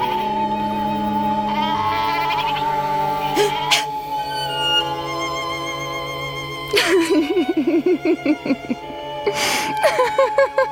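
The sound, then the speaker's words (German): Goats bleat in a herd being rounded up, giving repeated quavering, nasal cries that cluster in bursts through the second half over a steady tonal background. “Lassen Sie uns die Ziegen wieder zusammentreiben.”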